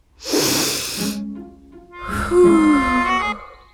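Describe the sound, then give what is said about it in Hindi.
A slow, deep breath demonstrated as a calming exercise: a long, breathy inhale lasting about a second, a short pause, then a longer, voiced, sighing exhale with a steady hum-like tone that fades out. “चलो एक बार मेरे साथ लंबी सांस लो।”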